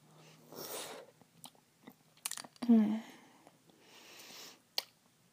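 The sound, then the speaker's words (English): Coffee-flavored ice is chewed, with a cluster of sharp crunchy bites and one loud crunch near the middle, surrounded by softer mouth and breathing sounds. “I gotta taste this ice.”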